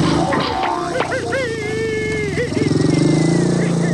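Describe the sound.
Motorcycle starting and riding off with four people aboard: the engine catches amid voices and clatter, then settles into a steady, throbbing rumble that pulses rhythmically toward the end.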